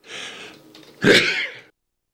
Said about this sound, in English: Excuse me. Sneeze cuts. Nailed me.